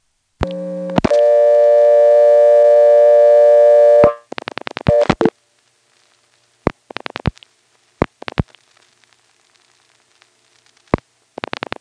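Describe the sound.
Telephone call-attempt tones through a step-by-step exchange, dialed via an NX1 crossbar: a short two-part tone, then a steady buzzing tone for about three seconds, followed by scattered bursts of clicking pulses and silence.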